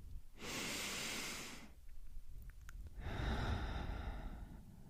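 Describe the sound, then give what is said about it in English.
Two long, soft breaths, one a deep breath drawn in. Each is a quiet airy rush lasting over a second, with a short pause between them and no talking. “the smell of fresh air like if right now you're outside take a deep breath in”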